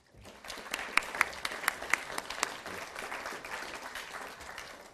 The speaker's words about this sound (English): So now, please give a warm welcome to Hartmut Rosa.